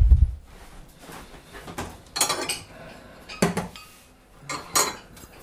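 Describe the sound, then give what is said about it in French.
Cutlery clinks and scrapes on a plate as a piece of food is cut and served. Several short, bright metallic taps and rubs come in separate bursts with quiet gaps between them. “Et on se coupe un morceau.”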